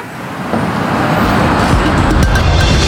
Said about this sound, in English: And yes, it is still really busy, but we're in the heart of Beijing CBD now. And have a listen to how quiet it is. That's the impact of an electric society.